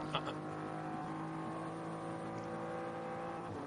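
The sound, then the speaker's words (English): A BMW M3 Touring race car on a long circuit, challenging for sixth in the closing stages of a race. Its engine gives a faint, steady droning roar with no distinct pass-by and no talk. “with Neil Verhagen at the wheel of that BMW M3 Touring as it challenges for sixth.”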